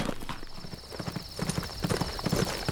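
Horse hooves clip-clop as a rider comes into camp at twilight: many even, rhythmic hoof strikes at a steady walking pace, moderately loud throughout.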